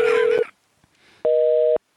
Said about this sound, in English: your phone number didn't work.